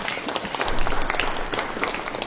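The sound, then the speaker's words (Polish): Warm applause from a parish community gathering: a fairly quiet, continuous patter of many hands clapping, swelling slightly midway and holding steady to the end. “także brawa dla nich gorące.”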